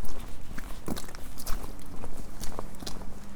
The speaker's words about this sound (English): I seem to be walking through Swanville Nature Reserve.